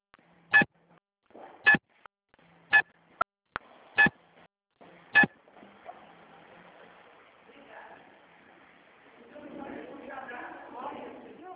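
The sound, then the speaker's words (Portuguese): Telephone keypad DTMF tones as a caller enters a card number into an automated bank phone menu: a series of short, bright, evenly pitched beeps spaced about a second apart, followed by faint low noise. “Digite o número do seu cartão ou, se preferir e for o titular, digite o seu CPF.”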